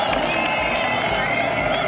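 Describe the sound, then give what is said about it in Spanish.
A festive crowd from the Budapest Pride march crossing Elisabeth Bridge makes a dense, continuous roar of many voices, with cheering and scattered clapping at a steady, loud level. “Este es el sonido de la Marcha del Orgullo, declarada ilegal por Orbán a su paso por el Puente de Isabel, con ambiente festivo y sin altercados.”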